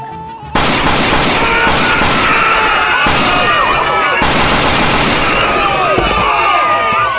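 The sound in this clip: Gunfire during a police confrontation: a loud, dense barrage of shots that starts abruptly and continues for several seconds, with a few sharp surges where fresh volleys break in.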